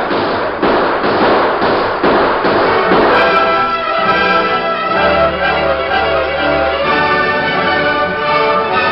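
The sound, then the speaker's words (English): Gunfire as a group opens fire: a rapid run of loud, punchy shots and thuds in the first few seconds, giving way to sustained tonal sound. “The rest of you open fire, too.”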